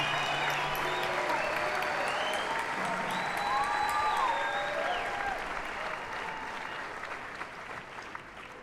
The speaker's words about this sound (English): Make some noise for him.